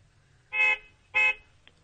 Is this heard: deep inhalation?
no